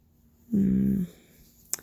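A pet gives a single low, droning growl lasting about half a second, then the sound drops away to near quiet before a brief sharp click.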